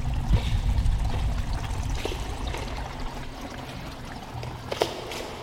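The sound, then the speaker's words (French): Water flows steadily in a small stream with a little waterfall beside a hawthorn, producing a continuous, fairly loud rushing and splashing hiss with faint brief drips and no voices. “on est au bord d'un petit ruisseau, près d'une petite cascade et sous une aubépine.”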